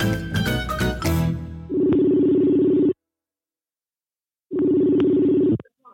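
Telephone ringback as a call is placed: two long, steady, buzzing tones separated by a silent gap, each moderately loud and stopping abruptly, with a brief burst of other tonal sound before them.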